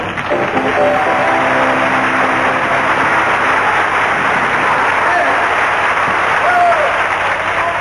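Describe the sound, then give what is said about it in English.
Audience applause for a Mexican orchestra, a dense, steady wash of clapping that fills the whole clip, with a voice speaking over it at the start. “so I'd like all you to give a round of applause for the Mexican orchestra”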